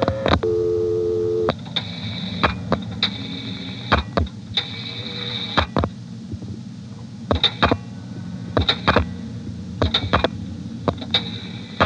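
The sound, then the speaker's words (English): An old telephone exchange line answers the dialing of a vacant level. A steady tone comes first, then many sharp clicks and short tonal bursts arrive in uneven groups over a low hum. “I'm going to dial a vacant level in the 221 exchange. I'll dial 670 to drop the director. 11 for the Triangle office, 1 for the 221 exchange, and 5 for a vacant level.”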